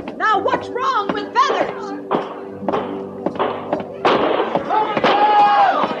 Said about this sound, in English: Where are those shots coming from, Captain?